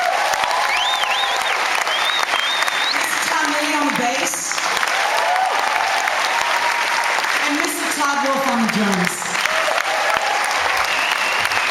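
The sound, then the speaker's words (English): Audience applause for a singer-songwriter at a live music show: sustained, dense clapping throughout, with whistles and scattered shouting voices rising above it at times. “Huge applause for Julie Newmark.”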